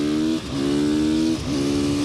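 Car engine accelerating hard on a wet track, a loud buzzing harmonic drone that dips briefly twice and recovers each time, heard alone with no voices.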